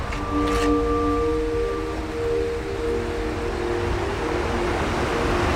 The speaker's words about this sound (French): Qu'on entend là, le cours d'eau, le torrent derrière, c'est le Vénéon.